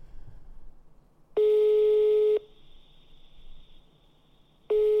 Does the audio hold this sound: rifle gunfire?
no

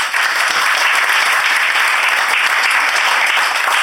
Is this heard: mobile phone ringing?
no

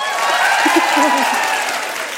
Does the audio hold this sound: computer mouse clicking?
no

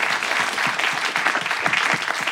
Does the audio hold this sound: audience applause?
yes

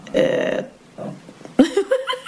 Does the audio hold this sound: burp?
yes

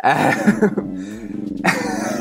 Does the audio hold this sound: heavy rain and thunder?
no

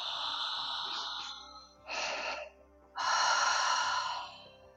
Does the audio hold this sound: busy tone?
no

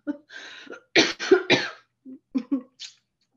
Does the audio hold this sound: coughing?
yes

